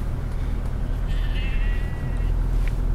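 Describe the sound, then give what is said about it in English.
Sheep and lambs bleating along a fire track: one clear, wavering bleat rises mid-clip over a steady, loud low engine rumble from the vehicle moving among them. “Watch out, little lambs.”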